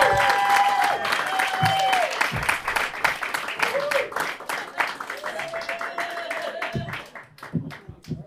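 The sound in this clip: Audience applause and cheering for a stand-up comedian at a comedy show, loud and sustained, with a voice speaking over the clapping as it thins out and fades toward the end.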